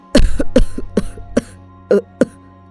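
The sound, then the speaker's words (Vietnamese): Coughing fit from a weak, sick young man clutching his chest: a rapid series of harsh, loud coughs, closely bunched at first and then spaced out, with no speech. “Nói đến đây, cậu lại ôm ngực, ho sù sụ.”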